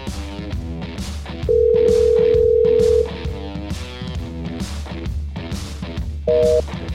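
An unanswered telephone call rings on the line: a long, steady, mid-pitched ringing tone, then a shorter two-note tone a few seconds later, both sitting above busy, rhythmic background sound.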